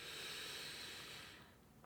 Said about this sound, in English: And the mantra is gate, gate, par gate, parasamgate bodhisvaha. And then another inhale.